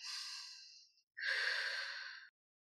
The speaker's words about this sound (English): we can just take a deep breath.